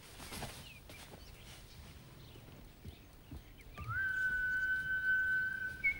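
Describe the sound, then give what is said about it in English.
A person whistles a single clear, high note that slides briefly upward and then holds steady for about two seconds, rising out of faint background noise after a few short chirps earlier on. “Wearing just a towel, she goes to the bedroom window to investigate the whistling.”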